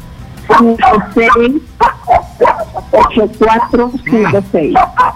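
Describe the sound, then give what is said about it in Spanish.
A small dog yaps and barks repeatedly during a phone call, its short, high-pitched cries mixed in with people talking, the barks coming in quick bursts throughout. “Se calle un ratito el perrito, por favor.”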